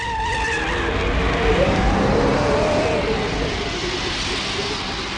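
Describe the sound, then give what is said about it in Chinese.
A motorcycle rides off with a loud, steady engine roar and droning tone that holds throughout and eases slightly toward the end. “廖飞说完开着摩托走。”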